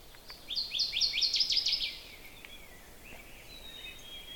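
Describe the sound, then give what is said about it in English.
A northern waterthrush sings a loud, rapid run of bright, high chirped notes that lasts about a second and a half, then gives way to quiet background with faint rustling. “There's that northern water thrush singing again.”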